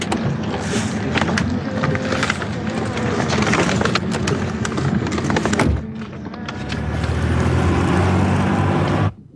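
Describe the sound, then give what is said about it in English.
A car drives away in a dramatized scene: a steady engine and road rumble continues throughout, dips briefly midway, swells again and then cuts off at the end. “Yeah, it's them driving away.”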